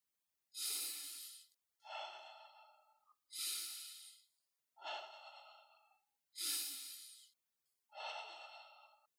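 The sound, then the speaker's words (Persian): Slow, deep relaxation breathing: three full cycles of six broad, airy breaths, each inhale followed by a slightly softer exhale, in an even, unhurried rhythm with no talk. “ریتم تنفس های عمیق به این شکل باشه.”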